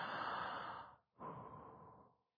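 A deep breath drawn in and let out: two long, airy breaths with a short pause between, loud and with no voice.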